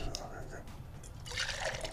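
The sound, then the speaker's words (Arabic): Coffee is poured into a tumbler with a soft, steady liquid trickle that grows brighter and splashier toward the end. “نسوي شيء اللي احنا نحب نسويه دائما اللي هو عمليه صب القهوه في التمبلر وتحضيرها صح ASMR”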